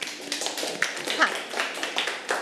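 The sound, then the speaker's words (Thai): Students clapping for a group in a classroom: irregular bursts of claps with small peaks throughout, and voices heard alongside. “ปรบมือให้กับกลุ่มที่1ค่ะ”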